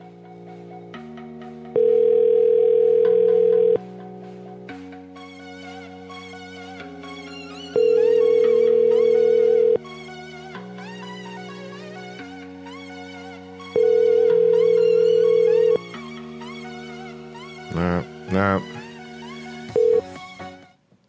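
A telephone rings on an outgoing call. Three long, steady ring tones repeat at regular intervals over a melodic background tune, followed near the end by a few short bursts.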